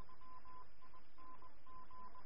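A telephone is dialed to call the police, giving a few faint short beeps in uneven bursts over a constant low hiss.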